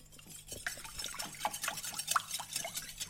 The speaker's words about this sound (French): Je vais battre les trois œufs euh, avec le lait.